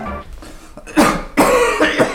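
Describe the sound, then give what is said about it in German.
A man coughs heavily. A few harsh, loud, rasping coughs come in quick succession after a quieter, rustling lead-in, with no talk. “Sie husten sich ja die halbe Lunge raus.”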